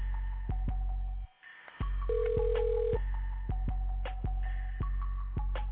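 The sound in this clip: A telephone ringing unanswered: one steady, low electronic ring tone lasting about a second over a steady rhythmic thumping, with a short dropout in the sound just before the ring.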